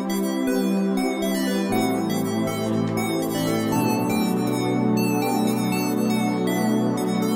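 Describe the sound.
A synth-pop pad with a small lead synth melody on top: warm, sustained chords hold steady beneath a brighter lead line that moves over them, with no voices.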